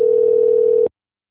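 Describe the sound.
A telephone dial tone, a single steady pure hum held at constant pitch and loudness for nearly a second, then cutting off abruptly into silence.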